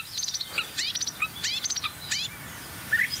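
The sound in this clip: Blackbird song comes as a run of short, high chirping phrases with quick upward and downward pitch sweeps. The bursts are separated by brief gaps over faint background noise.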